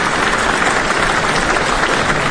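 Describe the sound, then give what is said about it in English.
Applause from a concert audience thanking sponsors, a loud, dense and unbroken wash of clapping that holds steady throughout. “So, round of applause. Yay, thank you.”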